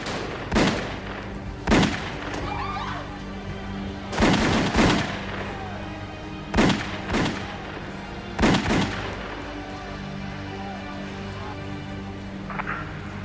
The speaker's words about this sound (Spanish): Al salir del automóvil, varios hombres se les acercaron y comenzaron a disparar.